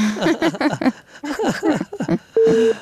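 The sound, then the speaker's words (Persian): A telephone busy tone sounds after a call is cut off: a single short, steady mid-pitched beep that follows a stretch of speech. “متاسفانه تماس جانم قطع شد”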